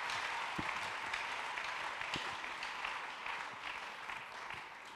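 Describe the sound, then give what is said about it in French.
Faint, steady applause in a church as an audience acclaims the Lord during a sermon, a soft continuous patter with a few low thumps. “Si ça a un sens, il faut acclamer le Seigneur.”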